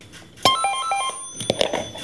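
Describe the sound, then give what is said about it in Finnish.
A telephone rings at a telephone museum in Helsinki, giving a metallic jangling ring with sustained tones and sharp clicking strikes at moderate loudness. “Elisan toimitusjohtaja Topi Manner nosti luurin Lontoossa ja soitti Helsingin puhelinmuseoon, jossa puheluun vastasi liikenne- ja viestintävirasto Traficomin pääjohtaja Jarkko Saarimäki.”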